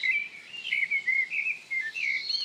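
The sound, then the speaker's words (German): A European robin sings a high, silvery, pearling warble of rapid, fluttering phrases with short pauses. The song is faint and heard alone. “erklingt der Gesang des Rotkehlchens silberhell, perlend und melancholisch.”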